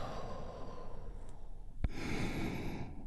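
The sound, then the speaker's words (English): A slow, deep breath is drawn in and released in a long, soft exhale during a group relaxation exercise. The breathing is faint and airy, with a single sharp click between the inhale and the exhale. “take a big, deep, healing breath all together. Here we go. And release.”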